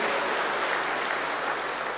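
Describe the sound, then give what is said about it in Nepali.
Applause from an audience at a religious gathering: a dense, steady wash of many hands clapping that stays even for the full two seconds, with no voices standing out. “अब ताली बजाओ, वरना आप क्यों पहुंचे”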